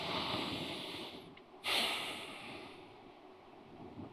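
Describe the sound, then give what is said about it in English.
Breath being taken during a reflective talk: a steady airy rush of air with a sudden sharper, louder intake partway through that eases back into soft breathing. No talking is heard. “Let's just take a breath right there.”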